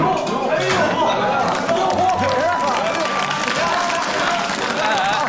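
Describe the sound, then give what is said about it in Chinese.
A crowd claps in sustained, loud applause as a comedian returns to the stage, and voices talk over the clapping throughout. “别鼓掌，别鼓掌啊！我受不了这个。”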